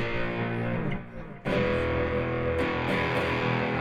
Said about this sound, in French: Mais notamment, on a un truc, c'est la disto, ça c'est terrible.